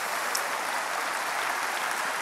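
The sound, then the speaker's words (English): A church audience applauds together, a dense, steady wash of clapping that stays even and fairly loud throughout, with no voices standing out. “Let's give the Lord a clap offering in his house today.”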